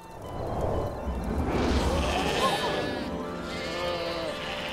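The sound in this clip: Sheep bleat in a flock in a field at night, their wavering, overlapping calls rising and falling over a continuous rough background.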